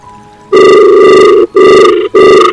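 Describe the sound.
A telephone rings loudly in three bright, buzzing bursts with short gaps between them. The last burst is cut off.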